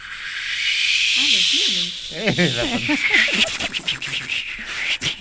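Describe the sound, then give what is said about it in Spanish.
A voice imitates a palm tree shaken by wind, starting with a long breathy rushing hiss. It then shifts into wavering voiced sounds mixed with scratchy hissing. “Y hágame el de una palmera agitada por el viento.”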